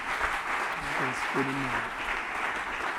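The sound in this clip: An audience applauds in church during worship, a soft, even wash of clapping with a voice briefly rising above it.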